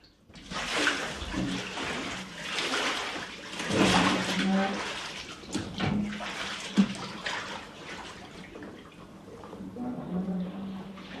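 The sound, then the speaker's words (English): Footsteps wade through ankle-deep water in a dark room among machinery. The sloshing splashes come one after another in an uneven rhythm and stay fairly faint throughout. “Shining a torch, he enters a dark room and wades through the ankle-deep water.”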